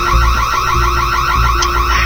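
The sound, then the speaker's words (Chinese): A gas leak detector alarm goes off in a home after a stove was left on, sounding a loud, steady stream of rapidly repeating, warbling electronic beeps with no pause. “这是那个煤气监测报警。”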